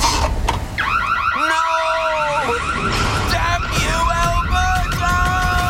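A home security system alarm in Alberta going off: a loud, continuous electronic wail of warbling, rising and falling tones that repeat without a break for the whole stretch.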